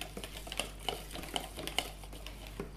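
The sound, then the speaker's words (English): Spoon stirring matzah cake meal into brownie batter in a bowl, a long run of light, irregular clicks and scrapes at low volume with no talking. “You just stir that in at the end.”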